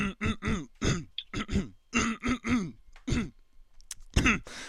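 Repeated throat clearing mixed with grunting, a rapid series of many short, rough, voiced bursts with brief gaps, fairly loud and alone.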